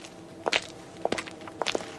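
Footsteps of two people walking home from work late at night, soft irregular steps falling in close pairs, a few of them, moderately quiet and alone.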